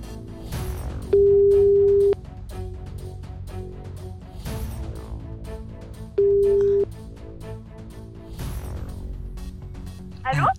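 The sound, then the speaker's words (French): Telephone ringback tone while a call is placed to a listener: two long, steady mid-pitched beeps, each about a second, separated by a pause, heard over background music. “Et on appelle tout de suite une personne qui s'appelle Amélie.”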